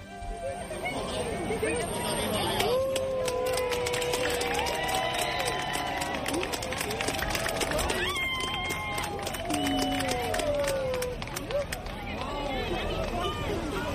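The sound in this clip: Crowd of people on the Almozara bridge in Zaragoza reacting to a solar eclipse, with a dense, continuous mass of excited voices, shouts and cheers that stays loud throughout.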